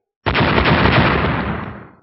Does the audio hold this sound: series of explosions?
yes

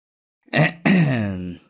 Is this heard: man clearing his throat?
yes

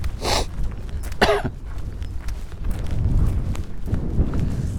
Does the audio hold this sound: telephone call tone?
no

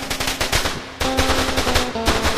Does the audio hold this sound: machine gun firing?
yes

